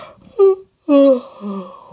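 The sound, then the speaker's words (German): A woman's drawn-out yawn, voiced by a storyteller imitating the sound, comes in a few moaning bursts, the last one long and sliding downward in pitch. “Wieder gähnt Frau Usebuse.”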